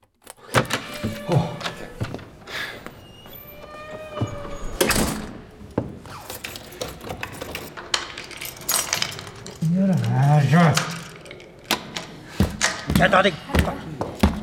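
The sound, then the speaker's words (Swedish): Someone rattling a stuck door lock while shut inside, with many irregular metallic clanks, jangles and thumps of the handle and door, interspersed with a voice speaking. “Jag kommer inte ut! Har de låst in mig? Vad är det här för jävla lås?”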